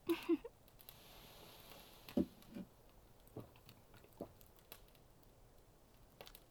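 Someone chews while eating food. A couple of crisp bites come at the start, followed by faint, irregular moist chews and soft clicks.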